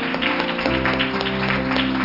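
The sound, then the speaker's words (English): Congregation clapping in praise during a church service, a steady, dense patter of many hands with a sustained low tone running beneath it. “Let's give him one more clap of praise.”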